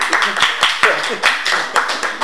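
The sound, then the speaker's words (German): An audience claps after a lecture on Nestor Makhno and anarchism in Ukraine. Distinct, fairly sparse claps come at a steady pace rather than as a dense roar. “Applaus.”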